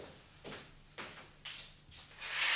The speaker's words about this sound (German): Wollen Sie die Güte haben, das Fenster da einen Augenblick zu öffnen? Dies tut Herr Brecht.